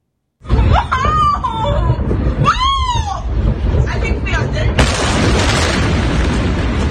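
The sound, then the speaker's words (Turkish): A loud explosion as a Soviet-era bridge in Ukraine is struck, bursting in suddenly and rolling on as a heavy, sustained roar that surges again with a brighter wash of noise near the end. “Sovyet döneminden kalma köprü böyle vuruldu.”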